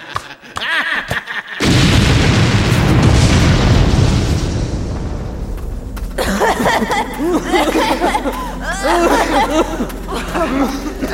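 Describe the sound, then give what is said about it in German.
Explosion blasting a mine shaft: after brief voices, a sudden loud boom erupts into a long, roaring rumble that slowly fades, then several people talk and exclaim over lingering low rumble. “Er hat den Schacht gesprengt. Wie verschüttet.”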